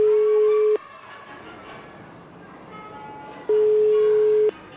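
Ringback tones of an outgoing telephone call to a nursery school's managing director that goes unanswered: two long, steady, mid-pitched tones separated by a few seconds of faint background hiss.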